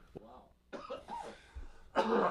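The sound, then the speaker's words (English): A brief, fairly loud cough near the end, set during a live radio studio conversation, follows softer vocal sounds and breathy noise earlier on. “A little cough there.”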